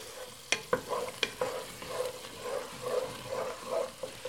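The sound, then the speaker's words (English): Sauce stirred and cooking in a pan, with a few sharp utensil clicks early on, then a steady bubbling sizzle that swells and fades in soft waves, with no talking. “We're just going to stir and cook that for a couple of minutes. Kind of let that develop into a bit of a sauce.”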